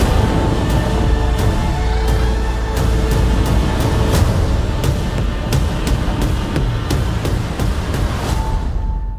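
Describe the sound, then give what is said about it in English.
Trailer soundtrack for Godzilla: King of the Monsters, loud and dense throughout, with many sharp percussive hits over a heavy low rumble. “that was the trailer for Godzilla, King of the Monsters”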